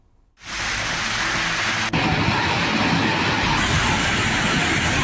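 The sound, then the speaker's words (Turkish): A heavy rain downpour during a thunderstorm starts suddenly and continues as a loud, dense, unbroken hiss to the end. “Gök gürültülü sağanak, sel fırtını, hava bozdu, birçok kente hayat felç oldu.”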